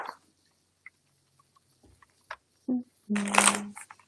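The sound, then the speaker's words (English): Playing cards are shuffled for a card reading. A few faint taps lead into a short, loud rustling riffle of cards near the end. “I will just pull a card for you then.”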